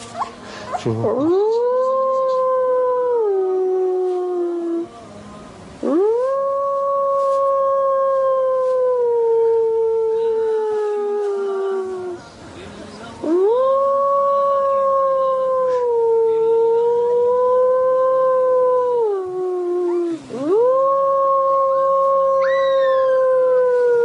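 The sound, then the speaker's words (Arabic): A young wolf howls while a person teaches it to howl: four long, sustained, wavering tones with strong harmonics, each held for several seconds and separated by short breaks, loud and alone without talk. “سبحان الله العظيم، إنسان بيعلم الذئب كيف يعوي وبيعلمه إزاي.”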